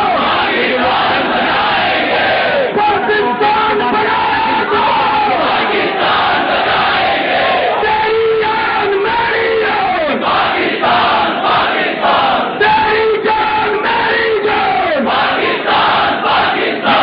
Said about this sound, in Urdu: دفاع وطن کنونشن میں پاکستان کو درپیش خطرات کے پیش نظر عوام نے یک زبان ہو کر پاکستان بنایا تھا، پاکستان بچائیں گے کے فلک شگاف نعروں سے اسلام آباد کی فضاؤں کو معطر کر دیا۔